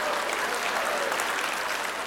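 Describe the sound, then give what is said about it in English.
A church audience claps in a steady, continuous round of applause that holds at a fairly even level from start to finish. “as y'all are clapping, women, I want you to know that neither of those is biblical.”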